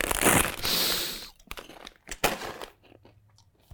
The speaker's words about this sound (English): called Illegal Chips, and their flavors include horse meat, Hasumarzu maggot cheese, and Fugu poison blowfish.